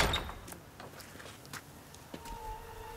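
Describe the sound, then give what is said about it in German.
A stable door on a farm bangs: one loud knock at the start, then a few fainter knocks and a thin creak over a quiet background. “Was war das? Hast du eine Stalltür offen gelassen? Nein, ich habe alle zugemacht.”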